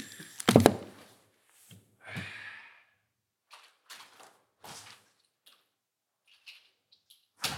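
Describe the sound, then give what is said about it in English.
A single loud, sharp door-slam sound effect lands near the start, followed by a few faint, scattered noises. “It wasn't a good enough slam. There we go. I'll add in a slam.”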